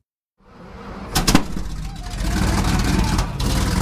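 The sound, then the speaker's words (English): A vintage Sherman tank drives down a street in Boston, a heavy engine rumble that swells in quickly and holds steady and loud, with a brief louder burst of mechanical clatter early on. “You really can't sneak up on anyone driving a vintage Sherman tank down the streets of Boston.”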